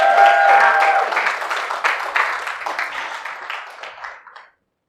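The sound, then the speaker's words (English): A church audience applauds to welcome a speaker to the pulpit, a dense patter of many hands that starts strong and gradually thins and fades to silence. “I'm very thankful for Norm. Can you give him a hand?”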